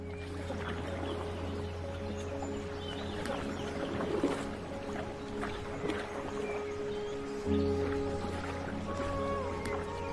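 Paddling a boat on water in a PlayStation VR 2 game: washing, splashy water noise over a steady low hum, with a couple of slightly louder swells and no speech.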